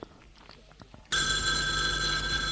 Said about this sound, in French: Le téléphone a sonné.